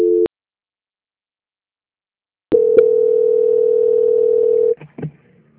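Telephone transfer tones on a bank call: a short steady tone, a pause of silence, then a long unbroken tone of about two seconds, followed by a few brief blips.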